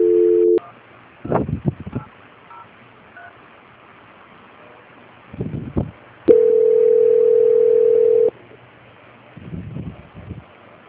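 Telephone tones during a call transfer: a short steady tone at the start, later a single sustained tone of about two seconds, with a few brief muffled line sounds in between.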